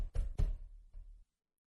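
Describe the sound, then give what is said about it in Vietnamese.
Knocking on a door: three heavy, low thuds, the first two close together and the third after a short pause, then silence. “tiếng gõ cửa và gọi tên hắn ngoài kia cũng càng lúc càng dồn dập”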